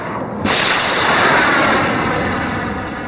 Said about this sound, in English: Here's the U.S. striking ISIS and more in Syria with this U.S. Tomahawk missile launch from the Arabian Gulf.